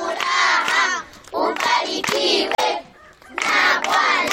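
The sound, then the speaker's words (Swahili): Clapping and lively children's voices rise in bursts inside a TAG church in Kasulu as a child is rewarded for a correct Bible quiz answer, with several loud surges separated by brief lulls. “Mpigieni makofi, amejibu vizuri.”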